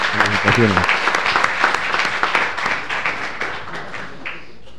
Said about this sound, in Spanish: Un aplauso para el nuevo presidente del Consejo.